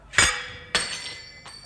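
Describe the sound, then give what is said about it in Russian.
A glass goblet holding a poisoned drink clinks and shatters: a sharp bright crash, a second ringing glassy hit, then a fainter tinkle with lingering resonance. “если бы я не разбил этот бокал с отравленным напитком миледи”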